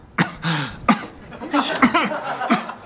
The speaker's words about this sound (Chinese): 哦，是你咳嗽呢？ 可能是大头传染的。